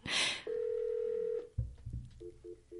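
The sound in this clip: Telephone line tones as a caller connects to a radio show: a steady electronic tone holds for about a second, then a few soft clunks give way to three short, evenly spaced beeps.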